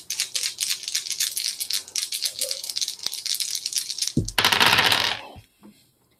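Dice rolling across a table during a tabletop role-playing game: many rapid, light clicking rattles run steadily for several seconds, then a louder, denser clatter bursts out and abruptly stops.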